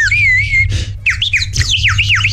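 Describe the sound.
A hand-blown bird-call whistle gives high, warbling chirps and trilling swoops in quick succession over a steady low hum.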